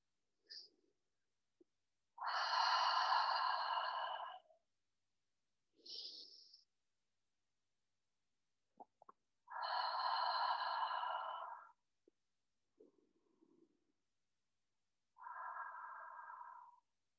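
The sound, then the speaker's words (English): Deep guided breathing during a meditation: three long, voiced, sighing exhales through the mouth. Each one comes after a short, faint inhale through the nose, with quiet pauses between them. “I invite you to take a deep breath in through your nose and out through your mouth. And we're going to do that together three times.”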